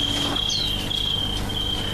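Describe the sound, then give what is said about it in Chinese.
Crickets chirp in August, a continuous high, thin trill that holds steady over a low background hum. “尤其到那个8月份，没有蛐蛐根本睡不着觉。”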